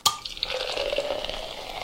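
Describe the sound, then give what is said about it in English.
Beer is poured into glasses: a sharp, brief onset gives way to a soft, steady fizzing, foaming rush of liquid that stays faint for under two seconds. “The beer we're drinking for today. I believe, we need to flow into what is filling our glasses currently.”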